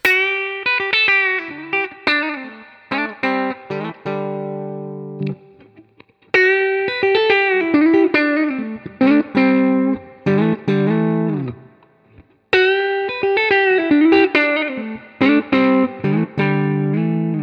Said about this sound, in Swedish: Och sen så lite single string. Vi börjar på lead-micken då.